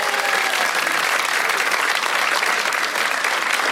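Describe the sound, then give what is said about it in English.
Dense, steady applause from an audience welcoming a renovation expert as a guest, with many hands clapping at an even level throughout and no voices. “We welcome Cherie Barber. Give it up, everyone.”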